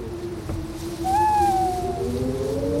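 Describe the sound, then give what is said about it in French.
An owl from a forest in Northumberland gives a single drawn-out, smooth, gently falling hoot over a steady low drone. “Oui, c'est exact. C'est une chouette. Pas n'importe laquelle, évidemment. Une chouette de la forêt de Northumberland.”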